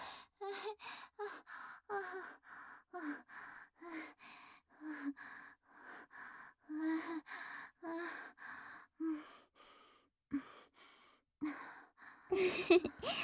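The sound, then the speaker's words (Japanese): Deep, rhythmic breathing, many slow breaths in a steady cycle, several carrying a soft voiced, sighing tone, faint overall, with the last few near the end louder and rougher. “ほら、深呼吸して。深呼吸。”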